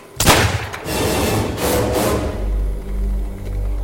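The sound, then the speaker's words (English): A single pistol shot cracks out sharply, followed by a long, dense wash of noise and a low rumble that lingers to the end. “She shot herself.”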